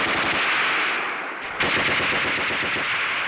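Heavy machine-gun fire rattles on continuously, loud and rapid, dipping briefly midway before the dense bursts resume at full strength. No voices are heard over it.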